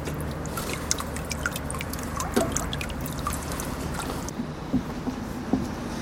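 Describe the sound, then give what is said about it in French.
Low, steady background rumble from harbour docks at the port of Tórshavn, with soft watery trickling and a few faint knocks scattered over the top, continuous and without voices. “Et le bruit que vous entendez au fond, c'est des docks.”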